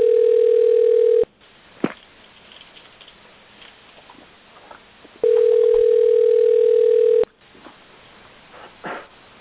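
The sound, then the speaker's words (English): A telephone dial tone before an elevator phone number is dialed: two loud, steady, unbroken tones, the first about a second long and the second about two, separated by a few seconds of quiet line noise with faint clicks. “Oh, we've got to call that elevator phone number.”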